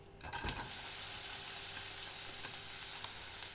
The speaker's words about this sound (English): Put the onion in to fry.